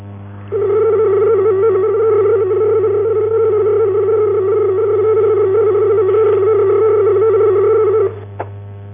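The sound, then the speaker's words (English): A 75 bits-per-second supervisory channel data tone on Datel 600 and 2400 services: a steady, unbroken electronic tone sounds for about seven and a half seconds over a faint low hum, then stops, followed by a brief click. “The 75 bits per second supervisory channel on both the Datel 600 and 2400 services sound like this.”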